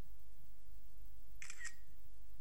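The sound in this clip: A camera shutter takes a picture: one short, bright mechanical click, faint against a low steady hiss.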